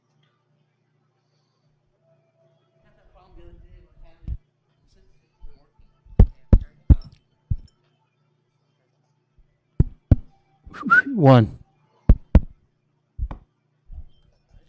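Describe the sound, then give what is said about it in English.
Tapping on a wireless microphone gives many sharp, dry knocks in irregular clusters separated by silence, with a brief voice counting and speaking between the taps. “Okay, we can hear us tapping on the microphone,”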